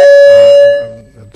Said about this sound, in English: Too quick a bell there for me.